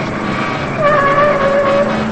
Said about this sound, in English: They drive down some back alleys and almost hit cars as they emerge.